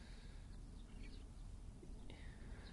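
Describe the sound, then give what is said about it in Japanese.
White-cheeked starlings call as they pass over a wide open lot in the morning, a few faint, short high chirps scattered over low steady background noise. “今ちょっとムクドリなんかも通過したりして、朝ですね。”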